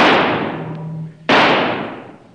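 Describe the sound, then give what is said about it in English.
Two gunshots ring out in a jungle as an antelope is shot. Each is a sharp, loud crack trailing into a long fading rumble, the second about a second after the first. “All right, Kiva just shot an antelope.”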